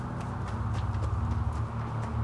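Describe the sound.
A rider's horse clip-clops in a steady, even rhythm of hoofbeats over a low, continuous rumble. The hoofbeats come at a moderate volume with no voices.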